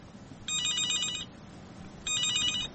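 A telephone rings for a listener's call-in: two bursts of bright, trilling electronic ringing over a steady background hiss, with a short pause between them.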